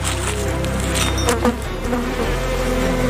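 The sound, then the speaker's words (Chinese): Honeybees buzz in flowering rapeseed fields beside Qinghai Lake in July, brought there by beekeepers. The sound is a dense, continuous, loud drone of many insects with no talk. “大的是人类，小的是蜜蜂。这时养蜂人带着蜜蜂在追赶花季”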